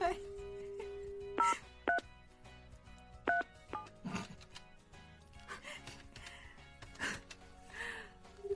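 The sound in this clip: Touch-tone beeps from a telephone number being dialed, sounding as a few short electronic tones at uneven intervals, set against quiet background noise.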